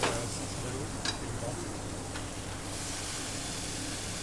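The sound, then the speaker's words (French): Potato pieces fry in hot oil for their first cooking, giving a steady, fairly quiet hissing sizzle with a couple of faint crackles rising briefly above it. “Je coupe la patate. Hein, pour mettre à cuire la première fois.”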